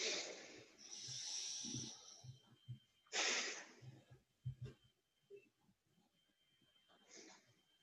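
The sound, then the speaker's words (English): A few slow, deep breaths, heard as long, faint, airy hisses of inhaling and exhaling, with soft murmuring sounds in the quieter gaps between them. “So if you'd be open to taking three deep breaths with me, that's going to help me settle in.”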